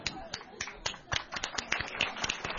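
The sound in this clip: An audience claps lightly in many quick, uneven claps that cluster together, fairly faint and without any swell into a full roar.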